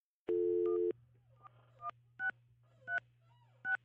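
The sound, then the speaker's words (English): Telephone dialing tones, quiet: one longer tone followed by about five short, evenly pitched beeps spaced out one after another over a low steady hum. “Do we need any dialing music? Definitely not.”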